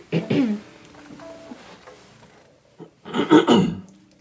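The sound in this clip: Throat clearing after a taco dinner, with a short raspy burst at the start, a quieter stretch, then a longer, louder gravelly clearing near the end.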